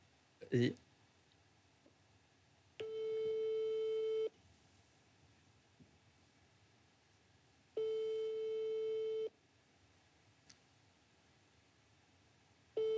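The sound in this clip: Ringback tone of a phone call placed on speakerphone: a brief loud click, then two long, steady electronic tones of even pitch separated by a quiet pause, with a third tone starting at the end.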